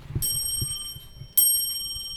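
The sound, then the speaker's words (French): A small mantel clock strikes its bronze bell, made with silver in the alloy, twice. Each strike gives a clear, bright, high ring that lingers and fades, with faint ticking underneath. “il y a des petites cloches, ce qu'on appelle les petites pendules de cheminée, donc qui sonnent assez, de façon assez claire, comme ça.”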